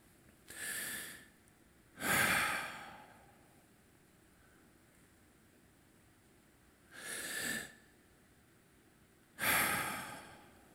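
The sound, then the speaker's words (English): A person imitates slow breathing with four loud, drawn-out breaths in and out, each a breathy whoosh, separated by long quiet gaps. “Why do you breathe in and out before you pray so we can leave?”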